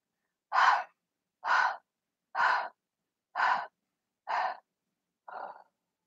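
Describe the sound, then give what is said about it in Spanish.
Six short, evenly spaced exhalations in a breathing exercise, each a soft airy puff of breath. The sixth is fainter than the rest, and no one speaks. “Y voy a exhalar entonces en seis tiempos.”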